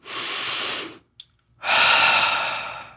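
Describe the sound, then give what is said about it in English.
A deep breath is taken: two long, loud breathy rushes, the second fuller and longer, separated by a brief pause with faint clicks. “One more deep breath. Give me two more.”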